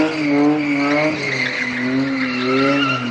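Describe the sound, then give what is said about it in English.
Toyota cars fishtailing and skidding on an empty cement lot in Benghazi, burning tire rubber: a loud, sustained tire squeal over droning engine tones, wavering slightly in pitch without a break. “In the late afternoon, young men gather to see just how much tire rubber they can burn. Fishtailing Toyotas leave a smear of swirling and smoking sticky blackness on the pavement.”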